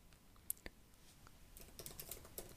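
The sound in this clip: Typing a message on a computer keyboard: faint, scattered key clicks that grow denser and more rapid toward the end.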